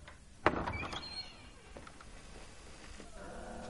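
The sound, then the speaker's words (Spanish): A door opens by itself in a film scene: a faint, sharp thunk leads into a short creaking squeal, followed by quieter rustling and a soft sustained tone near the end. “La puerta se abre sola.”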